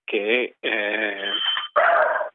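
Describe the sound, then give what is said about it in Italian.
A bulldog growls and whines in three drawn-out tonal bursts, fairly loud and wavering in pitch, the last one rougher and harsher than the first two. “Okay, hai un cane pro Brexit, un bulldog Brexit.”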